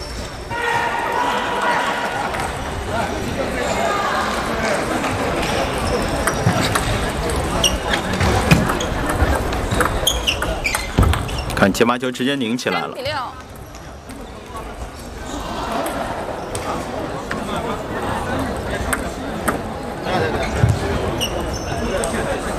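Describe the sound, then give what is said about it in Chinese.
Table tennis ball struck and bouncing during a club-level match, many sharp, quick ticks in a rally rhythm beneath a commentator's continuous talk. “发球抢攻。”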